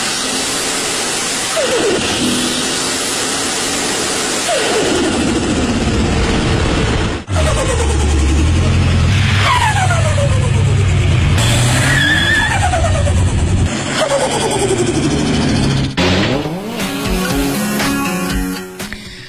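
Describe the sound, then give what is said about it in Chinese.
Turbocharged car engine recorded with the hood slightly open, revving loudly while repeated whooshing whistles sweep downward in pitch over a constant engine roar. “我还找了一段这涡轮增压声音， 看我学的像不像呗？ 听一下啊。”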